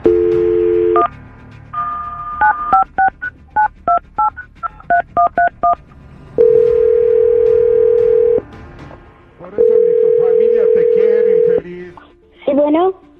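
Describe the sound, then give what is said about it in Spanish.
A telephone call is dialed: a short dial tone, then a quick run of touch-tone beeps, then two long, steady ringback tones with a gap between them, followed by a brief warbling electronic chirp at the end. “Vamos a marcar.”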